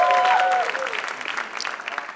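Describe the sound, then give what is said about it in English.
Church audience applauding during a testimony at a service, a dense, steady wash of clapping that starts loud and then thins into scattered, uneven claps. “Clap your hands for the Lord Jesus.”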